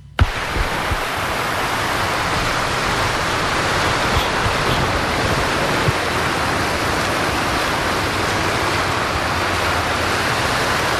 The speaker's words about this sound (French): je n'imagine pas un instant de renoncer aux multiples bruits de l'eau. Saviez-vous qu'un fleuve, ça s'écoute aussi ?